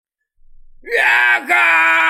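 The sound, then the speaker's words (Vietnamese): Anguished screaming of people in pain, struck by a terrifying curse: a loud, high, voiced wail rises quickly, then holds steady with one brief dip before carrying on, with no words spoken. “Rất nhiều người gào thét, đau đớn không cách nào kìm nén được.”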